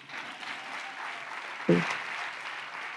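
Applause from a worship gathering: a faint, steady wash of clapping with one brief louder thump partway through.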